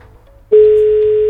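A telephone line tone sounds while a call is placed from a radio station: after a faint hum, a single steady, loud tone starts abruptly and holds unbroken at one pitch.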